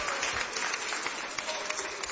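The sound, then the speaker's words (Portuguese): Audience applause in a church during worship, a steady, dense wash of many hands clapping that holds evenly from start to finish. “Palmas bem alegre, bem bonito para Jesus.”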